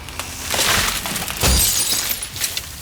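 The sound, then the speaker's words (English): A tree branch cracks away and smashes onto a minivan windshield: a crunching crack builds, then a heavier impact follows with bright, shattering glass that trails off into scattered tinkling. “And then you hear the telltale sound of a tree branch starting to crack away from the tree, and it lands directly on the windshield of the minivan.”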